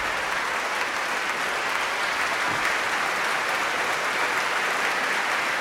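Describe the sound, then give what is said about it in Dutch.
A concert audience applauds a piano trio after a performance of Beethoven's Triple Concerto in C major, a steady, dense roar of clapping that holds at an even level from start to finish. “Bravo geroep hier. Voor het prachtige trio.”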